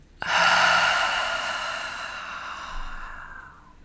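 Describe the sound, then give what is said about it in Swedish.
A deep breath slowly exhaled through the mouth: a steady, breathy rush of air that starts suddenly, holds, then tapers off gradually over a few seconds, with no talk. “Ta ett djupt andetag in genom näsan, fyll upp bröstkorgen, magen med luft. Och släpp ut andetaget långsamt genom munnen.”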